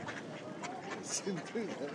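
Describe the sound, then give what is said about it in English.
Duck quacks at a spot where people feed bread to ducks and pigeons. A few nasal, wavering quacks come in the second half, with people talking throughout. “Cheeky little duck.”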